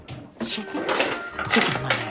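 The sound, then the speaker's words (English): A dresser drawer is pulled out and its contents are dumped onto a bed. A few scraping slides and clattering rustles of loose items come in quick, uneven bursts at moderate loudness. “She pulls out a dresser drawer and unloads its contents onto the bed.”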